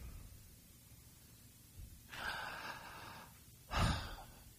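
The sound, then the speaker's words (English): Two audible breaths of air drawn in, each a soft, breathy rush standing alone over a quiet background. The second breath is shorter, sharper and louder than the first. “I just breathed air. Do I believe that I breathed air?”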